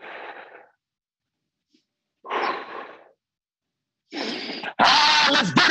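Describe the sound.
Deep breaths, inhaling and exhaling: a few breathy bursts separated by silences. The final exhale is the loudest and longest.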